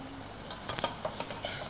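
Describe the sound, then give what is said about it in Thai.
Curry paste sizzles in a pan as coconut milk is poured in, giving a soft, steady frying hiss broken by a few light taps and scrapes of a utensil. “ถ้าใครต้องการให้มีน้ำมันออกมาเร็วเราอาจจะผัดกับน้ำมันก่อนก็ได้จะค่อยๆใส่กะทิลงไปนะคะ”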